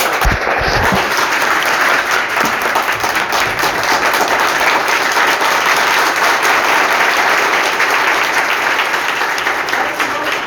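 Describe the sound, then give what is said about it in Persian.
Audience applause at a group meeting in a central office in Mashhad: loud, dense clapping that holds steady for the whole stretch without a break. “واقعا به افتخارش یه دست خوش”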